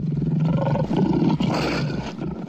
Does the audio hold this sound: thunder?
no